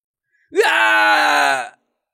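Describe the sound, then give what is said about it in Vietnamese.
A person screams in agony while being attacked and killed: a single sustained cry lasting just over a second, jumping sharply upward in pitch at the start and then held steady before cutting off. “Có người kêu thảm, bị tập kích mà giết chết ở nơi đây.”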